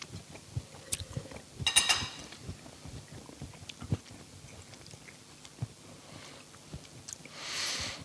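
Chewing on a piece of chili during a food and wine tasting: many soft, small crunching and wet clicking sounds in an irregular rhythm, faint and without talk.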